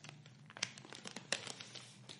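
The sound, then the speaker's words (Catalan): Crinkling wrapping as a small purple package is unwrapped: faint, irregular rustles and crackles that continue throughout, with a few sharper crinkles standing out. “Es tracta d'un paquetet lila. Sí, guapíssim. A veure què serà. Carai, a més per desembolicar dins.”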